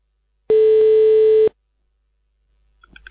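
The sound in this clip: A single steady telephone tone while a call is placed, flat in pitch and loud, lasting about one second, then silence with faint small noises at the end.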